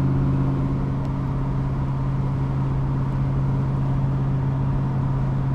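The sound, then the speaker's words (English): A car cruising on the Garden State Parkway highway with its windows half open: a constant, loud engine drone mixed with rushing wind noise, unchanging from start to finish. “Windows were half open again, and there was a little guardrail to my left, and there were trees to my right, and now I'm on the Garden State Parkway”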